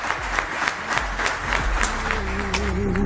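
Applause of clapping hands, a dense and steady crackling patter that continues throughout, with a low sustained tone rising up under it in the final second.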